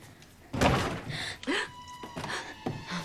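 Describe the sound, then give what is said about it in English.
Someone is trying to force their way through a front door, with a loud heavy thunk near the start followed by several more irregular bangs and rattles against it. “Someone is trying to get through the front door.”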